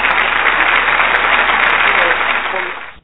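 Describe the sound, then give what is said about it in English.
Steady applause from a crowd, dense, even clapping that holds at a constant level for about three seconds before fading quickly at the end. “Yeah, okay, applaud that right there.”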